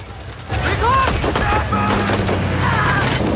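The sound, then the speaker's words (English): Gunfire from soldiers shooting at buildings in a combat firefight: loud, dense bursts of shots that start abruptly and continue to the end, mixed with shouting voices. “Pick up the rate of fire! They shoot at the buildings, taking hits all the time.”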